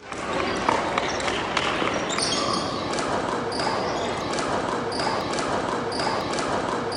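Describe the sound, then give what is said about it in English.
A basketball bounces during a behind-the-back shot, with a few soft, dull thuds heard over a steady bed of background noise. “This is a clip that you might find amusing. And we did find it amusing. And it's a pretty sweet behind the back shot.”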